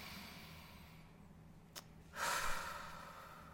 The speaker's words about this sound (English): Okay, so breathe in.